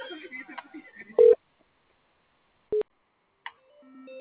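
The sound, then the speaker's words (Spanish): Telephone tone after a call drops: two short, steady, mid-pitched beeps spaced apart, with a voice talking before them and again faintly at the end. “se cortó la llamada”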